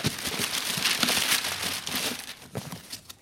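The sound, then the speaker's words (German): Paper crinkles and rustles as a wrapped present is unwrapped, giving a busy, continuous run of crisp crackles and crumples that rise and fall in loudness for a few seconds, with no talk. “Also eigentlich wollte ich den ja erst zur Bescherung auspacken. Aber in diesem Fall will ich mal eine Ausnahme machen.”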